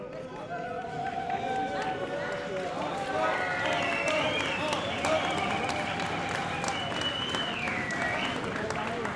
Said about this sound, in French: Je pense que dès qu'ils arriveront, que vous puissiez leur faire une ovation.